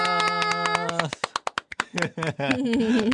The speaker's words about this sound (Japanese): 自分でも拍手してる、 ね、いつも拍手してくれてんの。